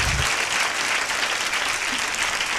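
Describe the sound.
Applause from a gathered audience clapping to glorify God, a loud, dense and steady patter of many hands that continues unbroken for the whole stretch.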